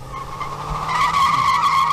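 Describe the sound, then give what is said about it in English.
Car tires squeal as the car peels out in a sustained high, wavering screech that grows slightly louder and holds steady to the end. A low engine rumble sits underneath. “Squealed wheels and everything, man. Peeled out.”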